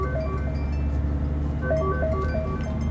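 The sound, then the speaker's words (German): A telephone rings inside a car with an electronic ringtone, a short repeating pattern of bright beeping tones over a low, steady engine hum. “Ja. Telefon.”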